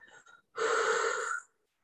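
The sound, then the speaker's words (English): Deep breath during a relaxation exercise: a brief, soft breathy puff, then one long, strong rush of air lasting about a second before stopping into silence. “So let's inhale, hold for a moment, and then exhale, sending that cool breeze down through your back and just letting it all go.”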